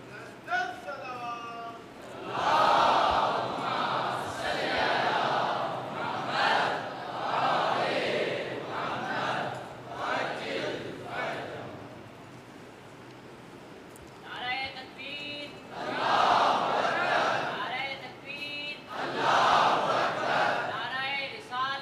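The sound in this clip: A crowd chanting slogans in loud, rhythmic waves of massed voices, surging and easing with short pauses between bursts.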